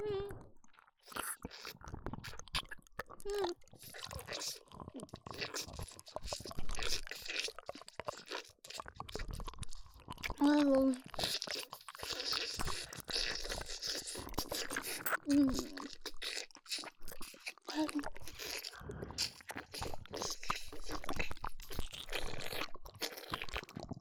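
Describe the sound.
Crunchy food being chewed gives many crisp, close crunches in a dense, continuous stream, with occasional soft vocal murmurs between bites.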